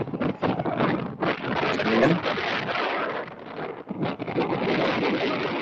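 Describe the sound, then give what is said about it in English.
Wind buffets a microphone outdoors in a rough, continuous rushing roar that swells and dips, with people talking underneath it. “I can't hear because of the wind.”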